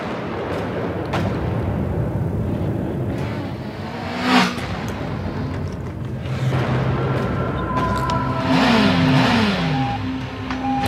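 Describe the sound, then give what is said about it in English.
Race car engine revving in a film trailer, a continuous loud engine drone with surging and accelerating swells and a falling pitch sweep near the end. No one speaks. “And they're setting up the trailer. I mean, great. You're going to ask for all this money. Let's see a good trailer. Because the race is about to begin. Vroom.”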